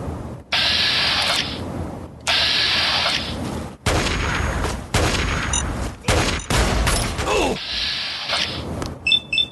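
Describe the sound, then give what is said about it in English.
Assault rifle gunfire in a video game rings out in a series of loud, sustained automatic bursts, about seven in all, separated by brief gaps. Each burst is a dense, crackling roar, with a few sharp clicks near the end. “Got him. With my new trusty assault rifle.”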